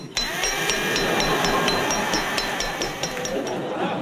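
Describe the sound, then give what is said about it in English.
DIY hammering brings many rapid, evenly spaced metallic clinks over a loud, steady noise bed, with a sharp onset at the start and a consistent rhythm throughout. “Now I'm sober, I do a lot of DIY, and they sound like this.”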